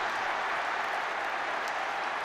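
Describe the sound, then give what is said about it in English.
Home supporters at a Newcastle Premier League match roar and cheer a goal, a fairly quiet, even wash of crowd noise and applause with no single shouts standing out. “Barnes takes his time and rifles it home. Cheers of jubilation and some relief”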